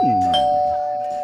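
A Ring video doorbell chime rings once as a single clear, steady electronic tone that sustains and slowly fades over about a second.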